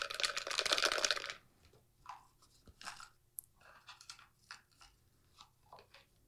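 Folded paper slips are shaken in a container. A loud, dense rattling burst lasts just over a second, followed by scattered softer rustles and crinkles.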